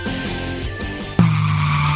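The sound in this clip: A car brakes hard with its tires skidding. A low engine hum gives way to a sudden loud screech that holds steady and strident until the end.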